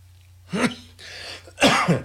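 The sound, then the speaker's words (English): A lingering cough comes through as a few harsh, rough bursts with a breathy stretch between them, over a steady low hum. “I have this lingering cough, and I can't get rid of it.”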